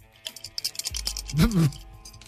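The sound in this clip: Dice rattled and thrown during a game, a quick clatter of sharp clicks, followed by a brief voice.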